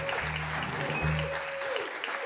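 Applause greeting the introduction of a host at a live show: a continuous, even wash of clapping that holds at a constant level throughout, with a steady low hum and a thin tone underneath.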